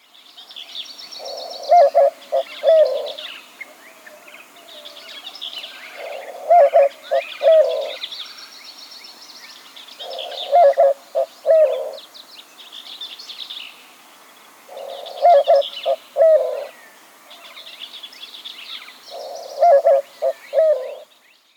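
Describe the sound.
White-winged dove cooing in five repeated phrases of several low, hooting notes each, separated by short pauses, with fainter higher bird chirps above.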